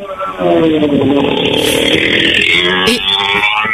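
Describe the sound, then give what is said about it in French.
A motorcycle engine passes loudly on a street while a car pulls over to the side. The steady, buzzing, harmonic drone fills the whole clip, with a brief dip near the end. “Alors, nous laisse la moto passer.”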